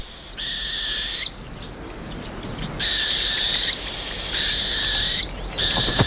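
Rufous owl chick calling, loud, drawn-out, wheezy screeching calls with a raspy harmonic tone, repeated several times with short pauses between them and no talk.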